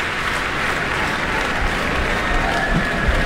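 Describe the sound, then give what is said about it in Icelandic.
Applause from a packed audience in Eldborg hall at Harpa after an orchestral performance: a dense, steady wash of clapping that holds at an even level for the whole stretch, with no single claps standing out. “og það fagnað áfram í smekkfullri Eldborg hörpu”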